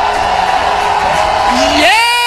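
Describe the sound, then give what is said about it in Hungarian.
A church audience shouting in celebration, a loud, sustained wall of cheering and yelling voices, with a whoop rising in pitch near the end. “Give the Lord a shout of celebration.”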